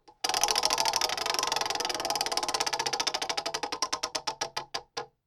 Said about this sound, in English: it is time to spin the wheel